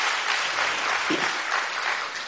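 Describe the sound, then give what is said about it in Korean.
Audience applause for a choir, a steady, full patter of many hands clapping at an even level throughout, with no voices standing out. “박수 한번 칠까요?”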